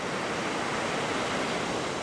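Emerald green Gulf Coast waves wash ashore on the public beach in Orange Beach, Alabama, a steady, loud hiss of surf that rolls on without distinct breaks.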